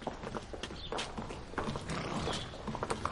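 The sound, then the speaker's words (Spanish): Hooves of a horse being led by the reins across the courtyard of a house: irregular, soft clip-clop steps within steady, rustling background noise, with no voices. “Un hombre lleva de las riendas a un caballo por el patio de la casa.”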